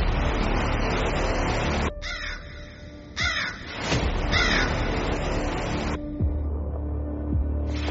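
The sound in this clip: Birds squabble in a tunnel, with harsh, crow-like caws repeating several times over a loud, steady rushing noise. Later the noise thins out, leaving a low lingering hum.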